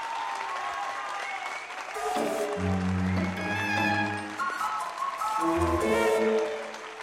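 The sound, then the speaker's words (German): Loud applause fills a theatre, a dense wash of clapping that swells after about two seconds and holds steady to the end, with a low tonal rumble running beneath it. “Vom lauten Applaus erdröhnte das Haus.”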